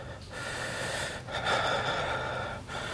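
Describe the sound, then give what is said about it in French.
Laboured, gasping breathing of a sick person with lung complications struggling for air. Long noisy inhalations and exhalations follow in a slow, uneven rhythm, with no talk over them. “Je vais mourir, Yann, c'est comme ça. J'arrive plus à respirer.”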